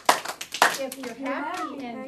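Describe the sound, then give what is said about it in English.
Children in an elementary school class clap their hands twice, two sharp claps in quick succession, and then their young voices sing together. “If you're happy and you know it, clap your hands.”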